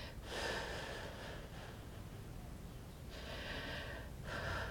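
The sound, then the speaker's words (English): Deep breathing with long, airy exhalations blown out in a few slow, steady breaths, soft and hushed with pauses between them. “Nice deep breaths, blowing, blowing, blowing.”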